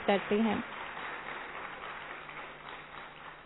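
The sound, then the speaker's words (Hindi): Audience clapping to welcome a guest at a Rotaract dialogue programme. A brief voice opens, then steady, moderate applause continues evenly to the end. “तो ऐसी बहन का भी हम जोरदार करतल ध्वनि से स्वागत करते हैं।”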